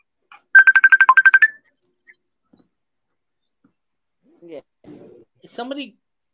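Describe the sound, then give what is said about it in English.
A phone ringtone from an incoming Facebook call plays as a quick burst of short, bright trilling pulses. It stops, and a few brief, faint voice fragments follow. “Is somebody getting a Facebook call?”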